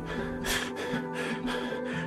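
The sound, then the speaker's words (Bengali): Heavy panting from a man standing and leaning his weight on a table, a few rhythmic breathy bursts of rough, gasping air over a low sustained tone. “টেবলে ভর দিয়ে দাঁড়িয়ে দাঁড়িয়ে হাঁপাতে লাগলেন Luis”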